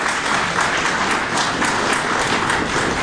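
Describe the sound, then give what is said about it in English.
A live audience in Rochester applauds to welcome the Antiques Roadshow team, a dense, steady clapping that stays at an even, loud level throughout. “Well, we're having a great time with a live audience. And once again, will the audience welcome the team from Antiques Roadshow to Rochester.”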